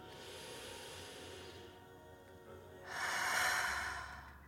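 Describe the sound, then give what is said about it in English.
A person takes a deep breath, heard as one soft, airy swell of breath that rises after a quiet stretch and then fades. “For now, I invite you to take one last breath with me.”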